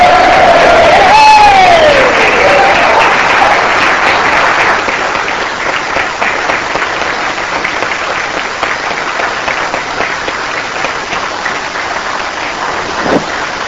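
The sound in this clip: A gallery audience applauds to welcome a guest, a dense, steady clapping that carries on for the whole stretch and eases only slightly toward the end.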